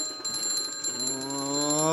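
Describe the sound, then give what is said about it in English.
An Omega Sanction alarm clock rings with a rapid, pulsing, high-pitched electronic tone that continues steadily through the whole clip. “But not just any alarm clock. Introducing the Omega Sanction, the world's most efficient alarm clock. It'll get you up and on your way, no matter what.”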